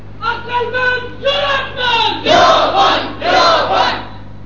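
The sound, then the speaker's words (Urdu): A crowd shouts a slogan in unison: a run of loud, forceful chanted bursts of voices that grow fuller and stronger toward the end. “نعرہ مارو گج کے ذرا”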